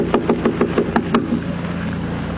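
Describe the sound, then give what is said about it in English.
Knuckles knocking on a door at the top of a stairway, a quick, even series of about seven raps, over a steady low hum. “Top of the stairs. I'll knock.”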